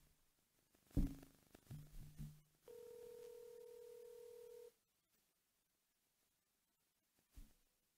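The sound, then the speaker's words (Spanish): A telephone call is placed: a few faint short tones and clicks, then a single steady ringing tone lasting about two seconds, followed by near silence and one brief click at the end. “Estamos llamando a mi hermana, Gorillo.”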